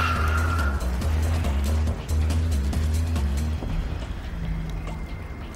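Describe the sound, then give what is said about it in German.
A black Fiat car speeding away: a loud, droning engine roar with a brief dip just before two seconds, then a gradual fade as the sound trails off. “Ein schwarzer Fiat fährt Richtung Innenstadt.”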